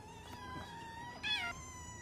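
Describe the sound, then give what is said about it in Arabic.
Faint cat meowing: one short, high meow with a wavering pitch rises briefly above a steady low hum and thin tonal whine. “القطة ما بدها ترد على صغارها”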